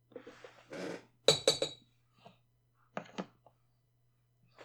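A used smoking bowl is dumped out before a fresh one is packed. A quick cluster of sharp clinks and taps is followed by a few lighter, scattered knocks against a quiet, low hum.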